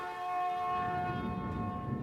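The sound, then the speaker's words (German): A 1928 tram railcar runs on the outdoor grounds of a tram museum, giving off a steady, even whine with a tonal hum that holds throughout without breaks. “Ich darf hier jetzt noch eine Ausfahrt auf dem Außengelände des Straßenbahnmuseums machen. Wir sind mit einem Triebwagen von 1928 unterwegs und es geht ganz gemütlich durch die Landschaft.”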